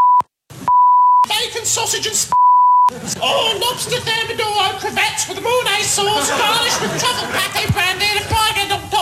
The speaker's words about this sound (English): Please don't call us and tell us any rude words that go underneath those beeps